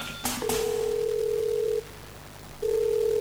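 Electronic telephone tone: a brief click, then a long steady mid-pitched tone, a pause, and the tone again, clear and alone.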